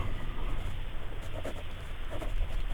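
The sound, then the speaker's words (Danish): Handwriting as a name is jotted down with a pen, a faint, steady scratching of nib on paper that runs throughout with small uneven strokes. “Da har jeg skrevet deg.”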